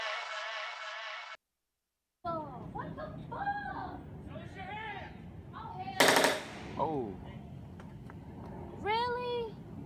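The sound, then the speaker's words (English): Police gunfire at a house bursts out as one loud, harsh crackling volley midway through, surrounded by agitated people talking before and after it. “Police out here shooting folks, y'all, in the house. Oh my gosh, Jesus Christ. This is fucking crazy.”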